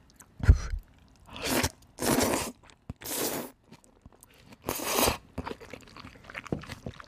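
Crunchy bites and chewing of a buttery food. A few loud, dry crunches are separated by quiet gaps, followed by softer chewing, with no talk.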